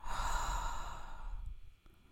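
A slow, breathy exhale from a guided breathing exercise: a steady, airy whoosh lasting about a second and a half that fades out, heard alone.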